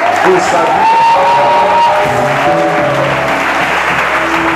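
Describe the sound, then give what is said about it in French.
A church audience cheers and claps as they acclaim God, making a loud, continuous roar of applause mixed with whoops and shouts. A voice rises over the crowd noise. “Acclame Dieu”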